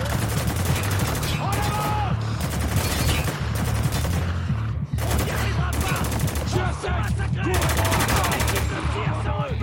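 Pump-action shotgun fire in a video game: many loud, dense blasts in quick succession that keep the sound almost unbroken, with other game noise mixed in.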